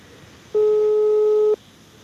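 Telephone busy tone after a call ends: a single steady, loud electronic beep of about one second, standing alone against a quiet background.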